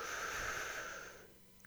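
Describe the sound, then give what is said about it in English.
One deep breath is drawn in during a guided breathing exercise, a quiet airy rush lasting a little over a second before it stops. “take a good, healthy, deep breath. One, two, three. Inhale.”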